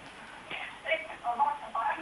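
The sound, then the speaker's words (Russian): Television sound playing behind a phone-in caller, carried as thin, band-limited telephone audio with talking voices rising and falling at moderate loudness. “Друзья, пожалуйста, умоляем, выключайте звук телевизора, когда дозваниваетесь в эфир.”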